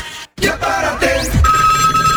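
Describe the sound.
A telephone rings with an incoming call: electronic sweeping tones are followed by a steady, sustained ring tone, heard alone.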